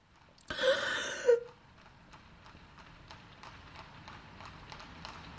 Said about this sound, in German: In diesem Augenblick fuhr in scharfem Trab Rodolphs blauer Tilbury über den Platz.